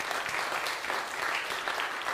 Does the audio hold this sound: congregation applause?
yes